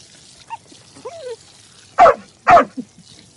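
A female dog barks twice in quick succession while being held by the collar, two loud sharp barks preceded by a few faint whines and yips, with no voices.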